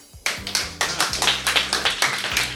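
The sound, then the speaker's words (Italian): Audience applause after a singer's live performance: dense, steady clapping from a crowd with a regular, pulsing rhythm, starting abruptly and holding at a constant level throughout. “E allora ancora un bel applauso”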